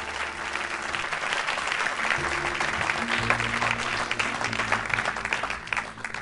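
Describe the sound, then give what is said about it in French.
A church audience applauds to acclaim the Lord during a service, a thick, continuous wash of clapping with steady low sustained tones underneath. “Peut-on acclamer le Seigneur pour nos bien-aimés expressions impact?”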